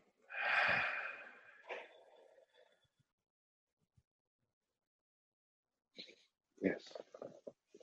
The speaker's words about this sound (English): We're going to take one more breath in and let it go.